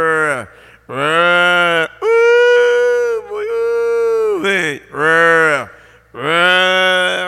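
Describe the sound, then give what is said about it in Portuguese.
Cowhands call a herd of cattle in a corral during milking time. A series of loud, long, drawn-out vocal calls with strong tonal harmonics, separated by short pauses. “que estão no curral, tirando leite, chamando a vacada. Eia, ui, vem pra cá, vem.”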